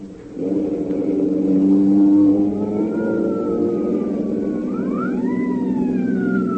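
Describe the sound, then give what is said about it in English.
An alarm siren wails over the steady drone of a car engine at full throttle, its tones sweeping up and down through the second half while the engine rumble holds underneath. “That's the alarm. They'll be after us.”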